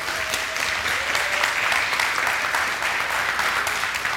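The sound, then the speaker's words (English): Audience applause welcoming a new small group coordinator onto the staff: steady, continuous clapping from many hands, loud and even throughout, with no talk over it. “why don't you give Annie Wilson a hand as she comes on up”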